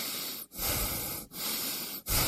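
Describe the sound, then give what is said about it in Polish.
A person breathes in and out in slow, noisy breaths, a few airy rushes separated by brief silent pauses, with no voice. “Proszę oddychać.”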